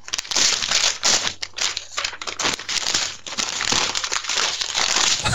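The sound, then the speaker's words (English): Paper notes being ripped up and crumpled, a dense, continuous run of crackling, tearing and crinkling bursts, fairly loud throughout with short gaps between handfuls. “Ripping the notes all to hell.”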